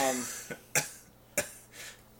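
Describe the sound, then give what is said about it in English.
A person coughs a few times, sharp, breathy bursts separated by short pauses, with a faint hum underneath. “cough.”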